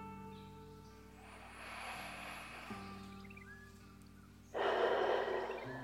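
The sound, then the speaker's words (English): Deep breaths taken during a guided breathing exercise: a soft, drawn-out airy breath, then after a pause a louder, rushing breath, both over a quiet, steady tonal background. “join me in taking three deep breaths. Here we go. One.”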